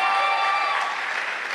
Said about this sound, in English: Yes, thank you guys. Clap for yourselves.